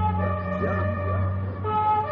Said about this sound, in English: The ambulance is here now.